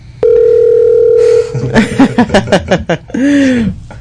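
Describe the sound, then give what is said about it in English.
Telephone dial tone when calling back: a loud, steady, pure hum that holds for just over a second, then stops as a person's voice comes on the line. “I'm going to call this person back. All right. Let's call her back.”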